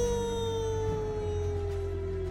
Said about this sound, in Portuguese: Se estava escuro, ele uivava no muro.